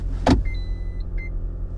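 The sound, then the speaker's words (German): Toyota Auris engine idling just after starting: a steady low rumble with a sharp burst near the beginning and faint high electronic tones above it. No voices. “Und da ist der Motor. Ist der Motor angesprungen.”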